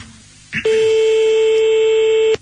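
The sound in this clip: A telephone being dialed to call someone back: a short click, then a loud, steady, high tone with overtones held for nearly two seconds before cutting off sharply. No one talks.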